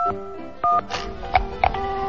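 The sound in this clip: Telephone keypad dialing tones as someone calls a plumber about a broken tap. A few short electronic beeps, the first the longest and clearest, sound over a steady tonal background.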